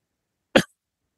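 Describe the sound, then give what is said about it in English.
A single short, sharp cough bursts out once and stops abruptly, alone in otherwise silent surroundings. “I just had a cough. I apologize.”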